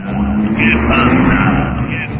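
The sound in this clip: Car traffic passing in a street-crossing computer game controlled with arrow keys, a continuous engine drone and road hum that holds steady throughout without a break.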